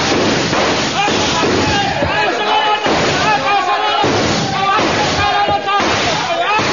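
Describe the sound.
A volley of rifle gunfire in a dramatized jungle skirmish: many dense, overlapping loud shots and bursts crackle continuously, with voices shouting through the din.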